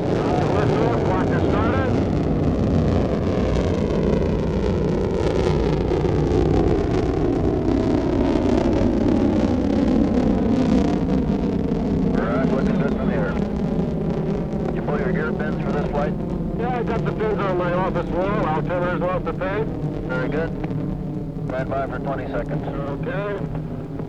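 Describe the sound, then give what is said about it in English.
Deep, sustained roar of a Mercury rocket liftoff, a thick rumble with slowly falling tones running under it, while voices talk over the later part. “This is Mercury Control. The count is 10, 9, 8, 7, 6, 5, 4, 3, 2, 1, liftoff.”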